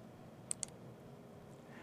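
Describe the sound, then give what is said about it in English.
Two quick computer mouse clicks, sharp and faint, land close together over a low background hum while an item is selected in a software management console. “Now the first thing we'll do is actually click on Packages.”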